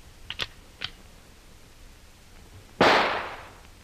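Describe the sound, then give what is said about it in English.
A rifle shot fired as a warning in a radio drama: one sharp, loud crack with a decaying tail, preceded by a few faint clicks. “Here is the rifle, Hannes. Let me have it. This will be a little warning for them. A taste of what they are to get later.”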